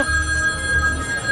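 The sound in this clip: A telephone rings with a steady, electronic-sounding ring tone that holds through the short clip over a low background rumble.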